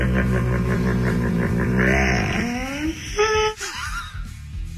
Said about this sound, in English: Or you get a flat tire. That sound it makes when it gets down to the rim. Oh, yeah, that's the one right there. You're, like, right down to the rim.